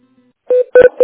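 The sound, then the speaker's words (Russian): Touch-tone keypad dialing on a phone line as a call is transferred at a kindergarten office: a few short, clear electronic beeps in quick succession after a faint hum, with no talk. “Секундочку, я переведу, а если она на месте, угу, не кладите трубку.”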